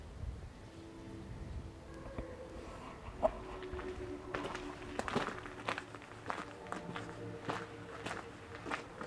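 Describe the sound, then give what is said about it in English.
Footsteps of someone walking around outdoors at night among old stone buildings make a soft, steady series of many faint steps over a low background hum. “And I'm just going to walk around.”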